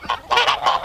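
A turkey calls with a few short, nasal, honking bursts, loud and clear with nothing else around them, over less than a second.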